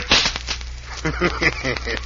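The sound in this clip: A whip cracks once near the start, a single sharp snap aimed at cutting the top off a cactus in a Western setting, followed by a man's voice speaking.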